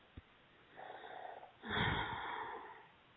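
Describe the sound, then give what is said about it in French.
A deep breath drawn in during a calm session of spoken affirmations: a faint, airy stretch of breath, then a louder, broad, rushing inhale lasting over a second, with no talk over it. “Voilà, une grande inspiration.”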